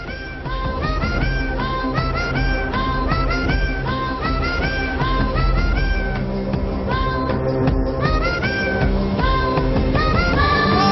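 A cat meows over and over in a played video, with many wavering cries in a rhythmic pattern over a dense, steady musical backing, loud throughout.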